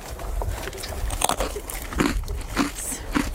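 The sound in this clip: Crunchy bites and chewing of a Shiruko Sand biscuit, an individually wrapped snack: several sharp, crisp crunches in an uneven rhythm, fairly loud and clear.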